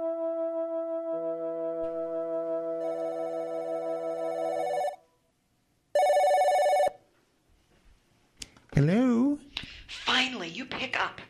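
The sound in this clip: A landline telephone ringing: sustained layered electronic ring tones, a pause, then one shorter ring burst, after which a voice begins speaking.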